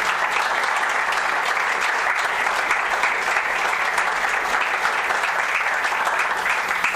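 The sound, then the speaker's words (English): Audience applause during a university address: dense, even clapping from many hands, sustained at a steady level throughout. “I think you ought to clap for that.”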